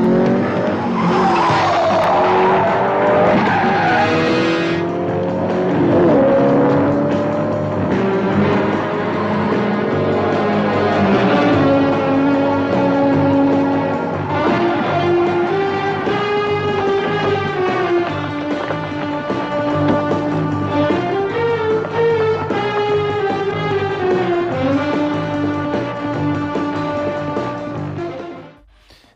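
Car engine revving and vroom-like motor noises woven into an instrumental theme tune, with squealing, skidding tones over steady music that plays loud and continuously for nearly half a minute before fading at the end.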